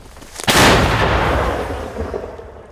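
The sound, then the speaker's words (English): Ukrainian troops fire an artillery shell back while defending counter-offensive gains: one heavy, loud boom that rolls on and slowly decays over about two seconds. “You can hear how many shells they fire back.”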